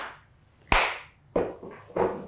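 A few sharp hand claps ring out alone at an uneven pace, each crisp and snappy with a quick decay, the first one loudest.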